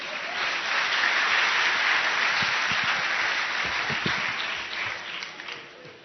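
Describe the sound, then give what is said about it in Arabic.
Audience applause for a sheikh at a religious gathering, a loud, dense crowd of clapping hands that holds steady for several seconds, then thins and fades toward the end. “صفقوا للشيخ أحمد عشان تحمس”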